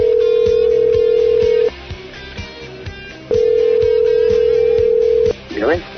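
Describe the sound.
An outgoing telephone call rings back with two long, steady tones separated by a pause, over a faint busy background. A voice briefly answers at the end.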